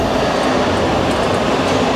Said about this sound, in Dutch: 5000 soldaten lopen er deze zomer rond door Washington. Ze zijn hier in de metro.